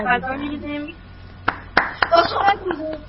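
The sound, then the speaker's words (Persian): Children in a class activity clap for themselves. A few sharp, scattered claps follow an adult voice, and children's voices chatter among and after them. “دست بزنید برای خودتون. عالی بود.”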